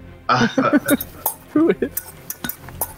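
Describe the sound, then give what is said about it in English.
A few bright metallic clinks of a metal spoon tapping a bowl, brief and sharp, scattered among talking voices that partly mask them. “could you mute while you're tapping my bowl? While you're tapping your bowl, yeah.”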